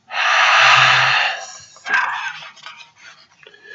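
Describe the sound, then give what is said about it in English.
Heavy breathing sound effect from the Angmar region of a video game: a long, harsh, breathy exhale followed by a few shorter rasping breaths and faint clatter. “Reminds me of one of my favorite sound effects in game, the heavy breathing in Angmar, when occasionally you hear them going,”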